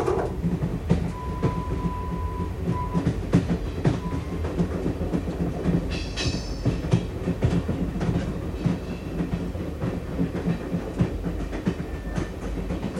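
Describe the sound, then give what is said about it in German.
A railway train rumbles along the tracks with a steady, continuous clatter of wheels over rails. A thin whistling tone rises above it early on, and there are no voices. “Das ist ein Zug der Western Railway Company.”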